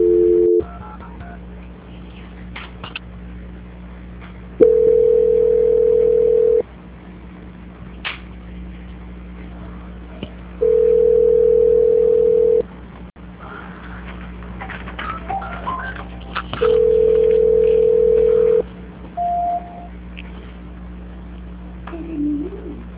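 Telephone line tones during a call transfer: three steady beeps of about two seconds each, spaced roughly six seconds apart, plus a brief tone at the start and a short higher blip near the end, over a low line hiss.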